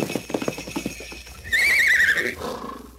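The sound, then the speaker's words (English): A reindeer arriving for Santa at Christmas: a few hoof clip-clops lead into a loud, high, wavering horse-like whinny that then fades. “Why, a real live reindeer. And it's just for you.”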